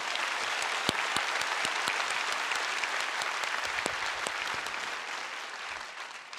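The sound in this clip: Dense applause from a church audience during a worship service, a steady, loud, continuous wash of many hands clapping for the whole stretch, with no talk over it.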